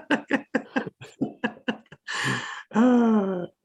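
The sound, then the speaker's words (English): A voice imitates the dragon breath of the character Iroh: after a run of quick talk comes a loud, breathy hiss, then a sustained, roar-like voiced exhale that stops abruptly. “Can you reenact the Iroh dragon breath again, please? No, too late. We missed it.”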